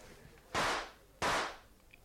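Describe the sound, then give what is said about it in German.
Two sharp gunshots crack in quick succession, about two-thirds of a second apart. Each is a sudden bright bang with a short fading tail, fairly faint against a quiet background. “Hey, was war denn das? Das waren doch 2 Schüsse.”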